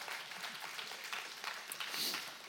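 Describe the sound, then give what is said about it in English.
Audience applause welcoming a man onto a stage: a faint, steady wash of many hands clapping that holds at an even level throughout. “And uh, I think y'all can do better. Give him a better hand than that.”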